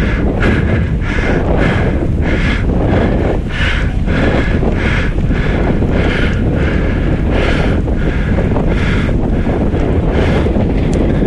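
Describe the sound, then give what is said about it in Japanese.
Strong sea wind at the mouth of the Yodo River, buffeting the microphone in a loud, steady roar with rhythmic pulses of gusting, no voices. “もう風は完全に海風、そして潮の香りがはっきりと感じられます。”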